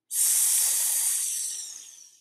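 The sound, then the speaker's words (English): Yogic snake breathing: a single steady hissing exhale forced through the teeth, bright and airy, starting abruptly and slowly fading over about two seconds. “through the teeth. Yes, this is yogic snake breathing.”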